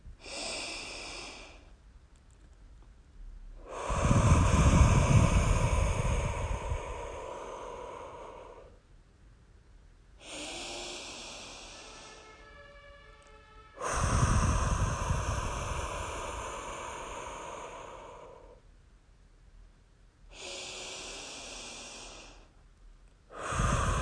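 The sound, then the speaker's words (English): Three slow, deep breaths drawn into the belly, long airy inhalations and exhalations alternating with short pauses, with no talking. “I want you to breathe with me. Just 3 really deep breaths into your belly.”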